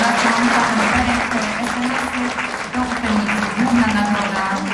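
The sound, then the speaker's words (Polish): Audience applause at an award ceremony of a radio reportage festival as a prize-winning reporter is called to the stage, a dense, sustained clapping that holds steady throughout. “Wielkie brawa”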